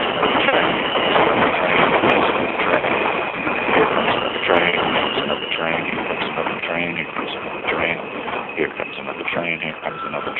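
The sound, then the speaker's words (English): A train passing near a donut shop payphone, heard over a phone line: a loud, steady rumble and rattle that fills the whole clip, with voices talking over it. “here comes another train, here comes another train”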